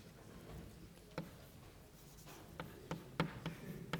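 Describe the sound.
Writing on a board during a maths lecture: faint scratchy strokes with a few sharp taps over a low background hiss, no talk.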